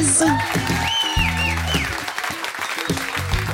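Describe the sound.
A live audience applauds at a radio live music session in New York City, sustained crowd clapping with voices and cheering rising over it throughout.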